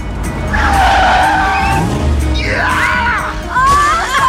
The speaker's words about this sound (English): The car jerks to a sudden stop.